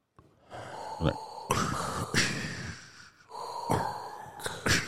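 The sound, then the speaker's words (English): A person imitates a villain's mechanical respirator. Loud, rasping, hissing breaths in and out repeat a few times in a slow, heavy rhythm. “Would you rather talk like Yoda or breathe like Darth Vader? How's Darth Vader breathe?”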